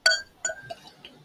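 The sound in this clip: Glass clinking as a Boquerón Brewing Company beer glass is handled: a few short, bright chinks with ringing tails, separated by brief quiet gaps.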